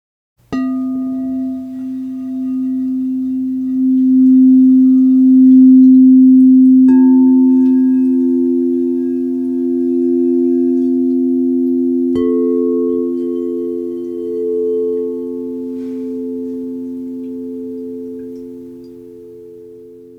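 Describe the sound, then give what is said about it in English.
Sustained sound-healing tones build an F major triad: three steady pure notes enter one after another and layer into a smooth, continuous chord that holds to the end. “This sound healing triad creates the key of F major.”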